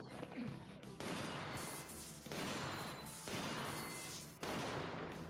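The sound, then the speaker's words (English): Toy-gun fire from a slow-paced movie scene comes in several abrupt, faint bursts, each starting sharply and then holding as a crackling, rattling wash before the next. “That's a toy gun you get at, like, a carnival.”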